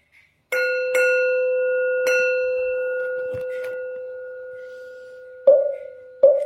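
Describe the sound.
A Buddhist temple bell sounds a few clear metallic strikes, each leaving a long, steady ringing hum that slowly fades. Two final, heavier strikes come near the end, with no voices.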